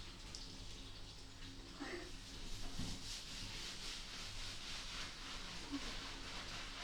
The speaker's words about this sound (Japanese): しっかり泡立てまして、では肩から参りますね。